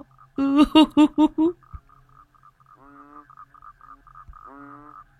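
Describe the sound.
Frogs croak in five loud, quick pulsed calls, followed by a pause and then a couple of fainter, drawn-out croaks.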